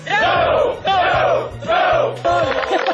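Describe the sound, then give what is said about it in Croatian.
Former youth work brigade members in Užice cheer loudly, their massed shouts rising in four rhythmic, chant-like bursts separated by short pauses. “Užicem odjekivali pozdravi nekadašnjih akcijaša. Drugari, brigadiri, bravo!”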